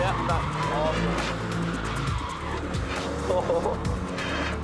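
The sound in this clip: A car with no front bumper drifts under power, its tires skidding and squealing over a loud, revving engine. A person talks over the noise throughout.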